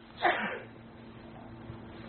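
A single sharp sneeze bursts out near the start, brief and fairly loud, then fades into a faint, steady low hum.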